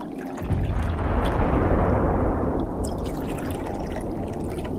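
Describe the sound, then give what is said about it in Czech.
Tea pours into a cup in a continuous splashing stream that starts abruptly after a brief quiet moment, then settles into a steady, slightly softer trickle. “Když dovolíte, naliju vám čaj.”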